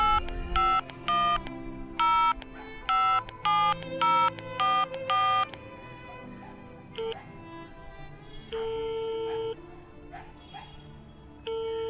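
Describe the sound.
Touch-tone phone dialling for a call: a quick, irregular run of many short keypad beeps, followed by a few longer, steadier tones.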